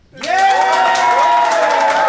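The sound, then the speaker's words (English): A live studio audience bursts into applause and cheering after a short silence, with sustained whooping voices over clapping that stays loud and even to the end. “So if you think Alfie and Ben, and therefore Jenna, is in the right, I would like you to applaud now.”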